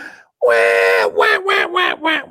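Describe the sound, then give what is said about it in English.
A female duck quacking: one long, harsh, nasal quack followed by a few shorter, choppy quacks in quick succession, loud and alone. “Actually, here's the sound of a female duck saying, do you have any food for us today?”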